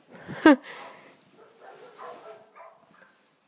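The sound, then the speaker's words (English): One sharp dog bark rings out early, followed by softer, fainter barking and whimpering from neighbourhood dogs on a residential street in the morning, echoing off each other. “There's a dog next door, a dog the other side, dogs across the street. And they all echo each other.”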